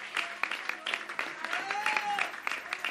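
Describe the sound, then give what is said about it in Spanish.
Audience applause at the close of a community media gathering, with quiet, uneven clapping made of sharp, scattered hand strikes and a voice briefly audible among them. “yo empezaría dándonos un fuerte aplauso por este mega encuentro que está finalizando”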